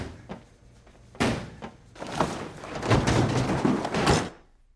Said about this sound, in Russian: ногой выбивает замок на морозильной камере.